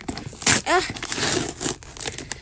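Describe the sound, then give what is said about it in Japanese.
Wrapping crinkles and tears as someone opens a carefully packed parcel, with a sharp ripping burst and continuous rustling throughout. A voice is briefly heard among the paper noise. “丁寧に開けたいって言ってビリビリって落としてるけど。”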